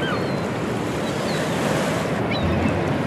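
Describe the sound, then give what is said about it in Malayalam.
Sea waves wash in a constant, full rushing hiss, with wind noise adding a rough low rumble. No voices are heard. “ഉയർന്നു താഴുന്ന piano സ്ട്രിങ്ങുകൾ പോലുള്ള ഈ തിരമാലകളെ?”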